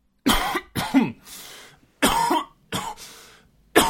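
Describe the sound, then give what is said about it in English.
A person coughs in a series of loud, harsh bursts separated by short pauses, with no talk alongside. “It sounds like you got a cough.”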